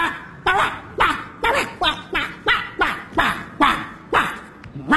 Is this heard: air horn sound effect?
no

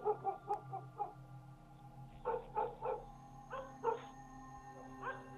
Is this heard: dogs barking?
yes

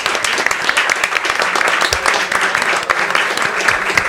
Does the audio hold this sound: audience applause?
yes

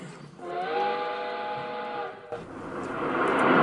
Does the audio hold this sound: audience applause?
no

